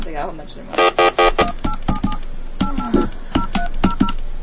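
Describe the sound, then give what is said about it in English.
Three quick electronic keypad beeps as a telephone number is dialed, loud and evenly spaced, followed by a voice talking over a few faint tones. “Oh, wait, I dialed the wrong number.”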